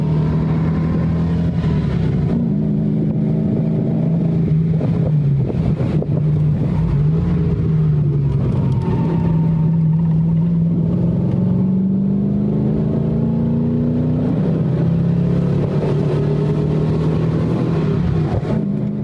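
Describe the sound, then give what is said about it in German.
Loud, continuous engine roar from inside a 507 sports car driven hard over alpine passes, the pitch climbing and dropping through gear changes, with steady wind noise underneath. “wie es in einem 507 so klingt, wenn er ziemlich engagiert gefahren wird”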